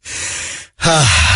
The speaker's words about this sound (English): Oh, man. I got to catch my breath.